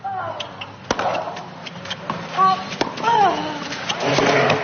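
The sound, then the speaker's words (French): Tennis balls struck and bouncing on a clay court at Roland Garros during a match, heard as a few sharp, spaced knocks with voices and calls in the background. “Ah, le son des balles sur la terre battue”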